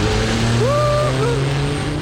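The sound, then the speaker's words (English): A turbocharged muscle car engine gives off a deep, steady rumbling drone with a strong low hum. It holds a fairly constant pitch and stays loud throughout. “Now, imagine giving that car a kick up the exhaust pipe, turning it from a reliable runaround into a turbocharged muscle machine, only by using the power of radio.”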